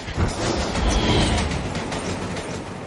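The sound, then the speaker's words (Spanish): A train travels at full speed, giving a loud, continuous rumble with a steady rattling clatter from the wheels and carriages throughout. “El tren circula a toda velocidad.”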